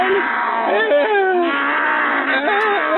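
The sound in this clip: A man imitates a lion roaring right into a microphone. The drawn-out, wavering bellow sounds like a growling moan and rises and falls in pitch. It is loud, close and somewhat thin and tinny throughout.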